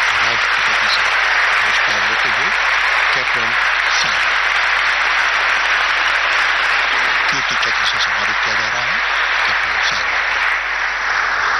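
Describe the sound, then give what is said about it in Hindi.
Sustained applause at a military gallantry award ceremony as a Kirti Chakra is conferred: dense, steady clapping that fills the whole stretch evenly without a break. “तालियों की कहकहाहट के बीच”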